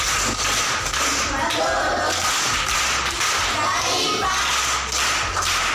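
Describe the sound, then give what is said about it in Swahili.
Sharp clapping from pupils in a classroom rewarding a correct arithmetic answer, a series of crisp, whip-like claps spaced through the stretch over a low steady hum. “Makofi kwa mjomba.”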